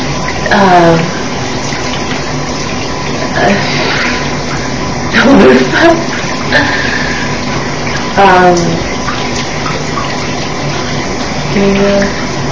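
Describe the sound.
Shower water running in a steady, hissing spray that fills the whole clip, with a few brief voice sounds rising over it.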